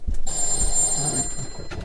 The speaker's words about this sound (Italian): c'è il telefono